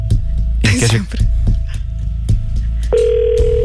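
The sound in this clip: Ringback tone of an outgoing telephone call: a steady, hum-like tone holds, then drops to a lower pitch near the end. A brief voice speaks over it early on.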